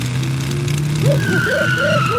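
The engine of a motor pickle runs as the vehicle is driven up. A steady low hum is joined by warbling, rising-and-falling higher tones.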